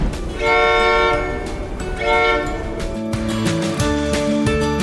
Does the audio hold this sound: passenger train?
yes